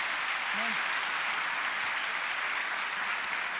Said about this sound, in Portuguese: Dá uma salva de palmas pela vida dele.